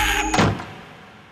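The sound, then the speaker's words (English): A door is slammed hard, giving a single sharp, heavy bang that fades smoothly over about a second. “And I scream at the top of my 10-year-old lungs and I slam the door hard.”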